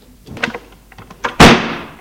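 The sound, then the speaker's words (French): A door slammed shut as someone leaves in anger: a few soft knocks and shuffles, then one loud, sharp bang that rings briefly and fades out. “Le fils sort en claquant la porte.”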